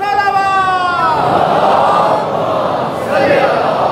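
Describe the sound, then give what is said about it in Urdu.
Crowd voices shouting the Naara-e-Haidari religious slogan together, loud and sustained, with one clear voice standing out at first before the crowd blends into a dense roar that dips briefly near the end. “نعرہ حیدری، محمد و آل محمد بلند”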